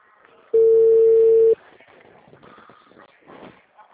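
A telephone dial tone sounds while a call is being placed, a loud, steady tone at one pitch lasting about a second. After it comes only faint, low background noise.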